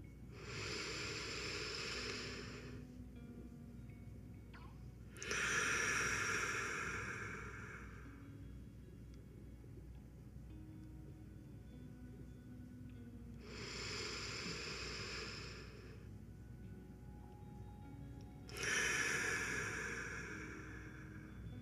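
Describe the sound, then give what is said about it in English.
Slow, deep relaxation breathing, soft and airy against a quiet background. Four long breath sounds of a few seconds each fall into two inhale-and-exhale pairs, separated by calm pauses. “Let's take three deep breaths as we begin to relax our body and mind.”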